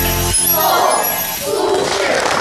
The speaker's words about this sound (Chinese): 亲爱的同学们，大家好，谢谢大家的掌声。